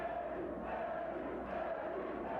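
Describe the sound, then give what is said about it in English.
A wrestling crowd chants for Eddie Guerrero during his match against Dean Malenko at a 1995 card. The massed voices come in faint, rhythmic swells that rise and dip in repeating cycles. “Crowd's chanting Eddie.”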